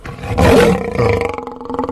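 A mountain lion lets out one loud, throaty roar. It swells quickly, peaks, and then trails off into rougher, pulsing growls.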